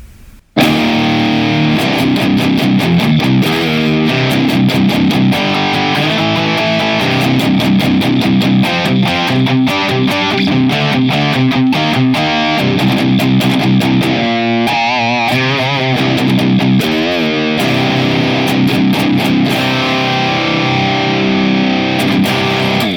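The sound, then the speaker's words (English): Heavily distorted electric guitar runs through an MXR Super Badass Distortion used as a preamp into a Boss IR-200 impulse-response unit in stereo. After a brief silent start come loud, continuous riffs of rapid chugging chops and sustained chords. “we are using the MXR Super Badass Distortion as the preamp going into the Kraken. And so that is the Super Bad Kraken 2 is the impulse response name. And our Boss IR 200 in stereo sounds like this.”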